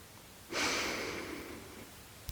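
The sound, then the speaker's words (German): A single deep breath drawn in during a guided breathing exercise begins abruptly and trails off gradually over about a second and a half, followed by a small click. “Und dann atme einmal tief ein.”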